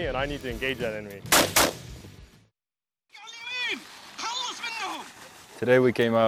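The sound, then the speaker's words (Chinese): Two sharp gunshots crack in quick succession as marines fire at moving targets in a training demonstration staged as a hostage scenario. People talk before and after the shots. “今天我们和澳大利亚的承包商一起做一个移动射击靶的演示，他们为我们提供一个不同的场景，比如说人质劫持，我们用这些移动目标来练习枪法。”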